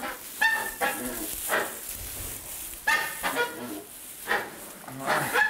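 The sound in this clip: Hens clucking and squawking in a coop while someone checks their nests for eggs, a woman speaking to them in German. The calls come in several loud, harsh bursts separated by short pauses.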